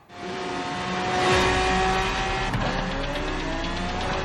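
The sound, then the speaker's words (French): A Formula 1 car roars around the Monaco circuit in a racing video game, heard from the cockpit view: a loud, continuous high engine whine with one brief downward sweep in pitch partway through, and no talking. “on est en vue intérieure, on est dans le cockpit, on conduit une Formule 1 sur le circuit de Monaco.”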